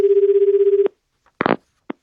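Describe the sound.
Telephone ringback tone while waiting for a call to be answered: one steady, low, rapidly warbling buzz lasting under a second, then a few brief clicks and rustles.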